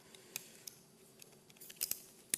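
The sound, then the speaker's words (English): A memory card is pushed into a camera slot, giving faint, sharp plastic clicks and small scrapes scattered across a quiet background, with a few louder ticks clustered toward the end. “I'll just put this card in the camera, put it in the right way.”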